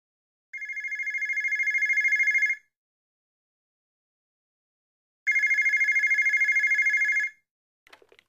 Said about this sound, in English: The phone.